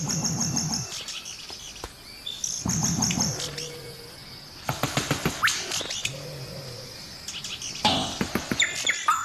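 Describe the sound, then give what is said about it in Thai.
A male bowerbird calling from its bower, with harsh chattering, sharp clicks and rapid chirping bursts, including a long run of quick clicking notes. “ซุ้มของมันสะท้อนเสียงร้องไปยังตำแหน่งของตัวเมีย”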